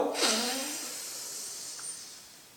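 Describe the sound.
A single hissing breath drawn in through one nostril during anulom vilom pranayama, starting sharply and then trailing into a long, gradually fading airy sound.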